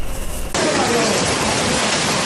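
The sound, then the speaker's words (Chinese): Heavy rain pelts a restaurant's makeshift canopy roof during a violent, windy storm in Tarragona province, Catalonia, Spain: a dense, loud, continuous crackling hiss that thickens suddenly and then stays steady. “暴雨来袭时，狂风大作，豆大的雨滴砸在餐厅的简易顶棚上，噼啪作响。”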